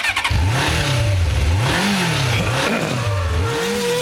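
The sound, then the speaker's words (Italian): A car engine revving hard in a sports-and-motors segment jingle, loud and continuous, its pitch swinging up and down in repeated waves over a dense music bed. “Siamo vicini alla chiusura, ma c'è uno spazio dedicato di cui chiederei partisse subito la sigla.”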